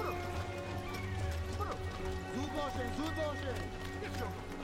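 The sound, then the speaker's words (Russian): Hooves of a small horse caravan, led by a bay stallion, clip-clop along a stream in a narrow gorge, with occasional whinnies over a steady, even background. “Вдоль него вверх по течению движется небольшой караван. Во главе его на гнедом жеребце едет душман с окладистой кудрявой бородой.”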